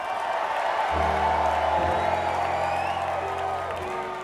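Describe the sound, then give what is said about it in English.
Concert crowd in Portland cheering, whooping and applauding at the end of an STS9 show, a steady loud roar with sustained low musical tones running beneath it. “Let's make some noise if y'all had a good time here tonight.”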